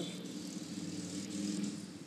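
A motorcycle driving by gives a steady, low engine drone that holds evenly throughout with no clear rise or fall.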